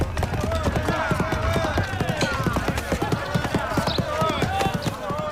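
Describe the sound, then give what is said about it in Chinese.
Galloping hoofbeats of a horse pulling a carriage: many sharp, fast clops in a steady, driving rhythm that continues throughout. “一骑马车飞奔而来”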